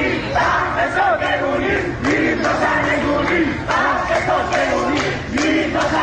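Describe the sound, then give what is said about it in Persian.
Protesters chant together at the Dey-month anti-government demonstrations in cities across Iran. The loud crowd shouts slogans in repeated, rhythmic phrases. “تظاهرات اعتراضی دیماه در شهرهای مختلف ایران، تظاهراتی که به مرور گسترده شد.”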